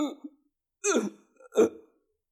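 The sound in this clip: A voice imitates choking and struggling to breathe: a few short, strained, throaty gasps and catches separated by silence, the louder ones in the middle and near the end.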